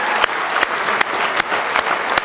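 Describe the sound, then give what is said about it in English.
A church audience clapping their hands in praise of the Lord: dense, steady applause from many people, with occasional sharper single claps popping out above the wash. “Give him a good hand clap of praise.”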